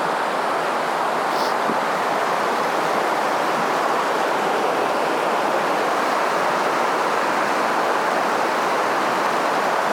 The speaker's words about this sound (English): So this is the river. It's not very big at the moment.